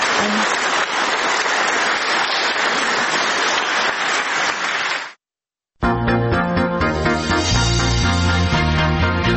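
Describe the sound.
Applause after a speech, a dense, loud patter of many hands that stops abruptly at about five seconds; after a short silence, music begins.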